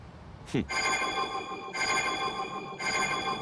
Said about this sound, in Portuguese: Quem será que está a ligar?